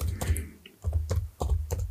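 A computer keyboard clatters with typing, quick bursts of soft clicking keys separated by brief pauses, moderately faint.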